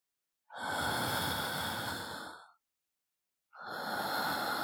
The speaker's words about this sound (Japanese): ゆっくり呼吸の回数を数えてくださいね。私と一緒にゆっくり呼吸しましょう。